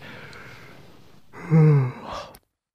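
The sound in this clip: A single drawn-out yawn from someone exhausted late at night in a hotel. It opens as a soft breathy inhale, swells into a brief voiced, moaning peak and then fades out.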